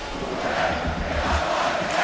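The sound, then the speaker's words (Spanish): Football crowd chanting in a stadium during a match involving Málaga and Unión Deportiva, fans singing that their team will be promoted; a dense, steady roar of massed voices with no pauses. “Pues sí, bueno, lo que canta el público, van a ascender.”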